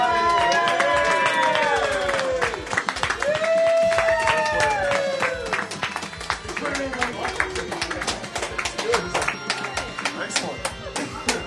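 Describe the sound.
An audience claps and cheers for a newly married couple at a chapel wedding. Dense, steady applause carries whoops and shouting voices throughout and thins slightly toward the end.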